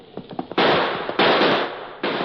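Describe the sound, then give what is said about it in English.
Gunshots in a radio drama: three loud, sharp blasts, each trailing into a long noisy decay, preceded by a few softer pops, with no voices. “That last shot hit home.”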